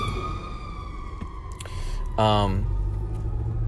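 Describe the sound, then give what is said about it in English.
Fire trucks climb a hill with a low engine rumble and a faint steady tone throughout, broken just past the middle by one brief, loud blaring burst. “Ooh, fire trucks. Coming up a hill.”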